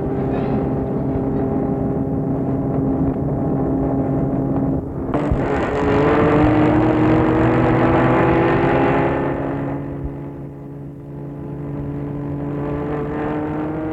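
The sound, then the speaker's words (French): A car engine hums steadily, then surges louder with a whirring, slightly rising tone as the car pulls away. After several seconds it eases back to a steadier drone. “Et il entre dans la voiture. Et Fernand démarre.”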